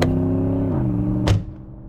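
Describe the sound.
A car driving away: a steady droning engine hum drops slightly in pitch, a brief thump sounds near the end, and the engine noise then turns quieter.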